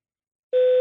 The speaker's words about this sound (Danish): Læg en besked efter tunen.